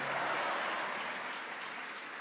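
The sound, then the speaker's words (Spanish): An audience applauds during a sermon, a smooth, continuous wash of many hands clapping heard faintly and evenly throughout, with no single claps standing out. “Dale aplausos al Rey que vive y permanece para siempre.”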